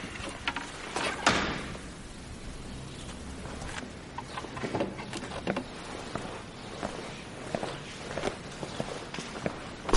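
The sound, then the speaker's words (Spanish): Footsteps of a man of about fifty walking firmly into a room: a steady series of fairly faint, firm steps, with no voices. “Camina a paso firme hasta llegar a los cuadros rechazados y coloca uno de ellos el primero.”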